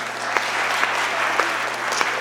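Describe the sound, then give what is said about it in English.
An audience gives a round of applause during a live record-attempt demonstration, continuous dense clapping with a few sharper individual claps standing out. “Okay, so next up, round of applause for those guys.”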